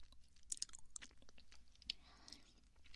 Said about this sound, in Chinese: 我吃的这个巧克力啊